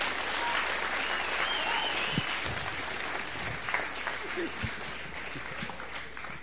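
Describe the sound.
Applause from the KCS audience welcomes guest speaker Phil: dense, steady clapping that carries on for the whole stretch and eases slightly toward the end.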